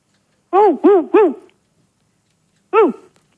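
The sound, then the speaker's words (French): Dog barking over a telephone line: three quick, tonal barks in a tight row, a pause, then one more bark, clear and fairly loud against silence. “Je crois qu'ils ont un chien, dis-moi.”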